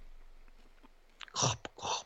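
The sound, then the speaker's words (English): Someone eats a Milky Way Crispy Roll chocolate bar: after a quiet start, two short crisp crunching bursts come with small mouth clicks between them. “I'm just going to eat a Milky Way crispy roll, if you don't mind.”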